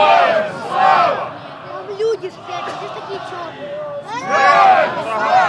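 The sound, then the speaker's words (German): Football fans roar the Slava Ukraini battle cry in Kyiv's Lobanovsky Stadium. Two loud bursts of massed shouting open and close the moment, and a quieter crowd murmur fills the gap between them. “Richtig laut wird es erst, als der Schlachtruf Slava Ukraini, Eroyem Slava gerufen wird.”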